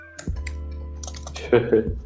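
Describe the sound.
Computer keyboard typing comes through as a quick run of clicking keystrokes, with a few sharper key hits standing out near the end.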